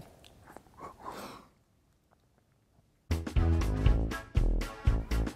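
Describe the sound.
Someone bites into and chews a slice of carrot cake, making soft, wet munching sounds that fade to near silence before louder sounds take over.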